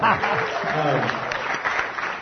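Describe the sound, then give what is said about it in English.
A church audience applauds a guest who has just been introduced. Dense clapping runs at a steady level, with voices talking over it at the start. “Go ahead, clap for Chris.”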